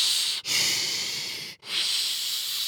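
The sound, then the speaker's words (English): Air drawn in through a fist held against the mouth to mimic labored breathing: a long, loud, rough airy hiss that stops briefly twice before resuming. “you take your fist, make a fist in front of your mouth and put like the little hole part of your thumb up against your mouth and try to breathe in.”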